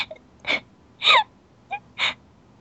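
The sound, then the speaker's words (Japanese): A young girl is crying, letting out a few short, breathy sobs and gasps with a whimpering, wavering pitch. The sobs are separated by brief quiet pauses, and no one is talking. “泣くなよ。嬉しいなら、笑えってば。”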